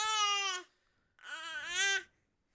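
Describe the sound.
A seven-month-old teething baby girl babbles in two drawn-out, high, tonal vocal sounds separated by a short pause, the second longer and wavering.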